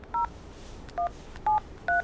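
Telephone being dialled on a touch-tone keypad, with four short beeps at uneven intervals over faint background hiss.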